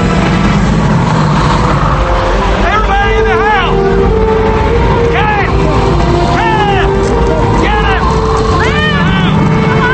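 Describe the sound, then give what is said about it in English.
Loud, continuous roaring wind from a tornado touching down over cotton fields, with a steady rumble and repeated whistling, swooping tones riding on top. “A strong wind blows off Eli's hat and rustles the cotton plants. Luke's hat blows off too, and he looks up. The giant tornado swirls as it touches down.”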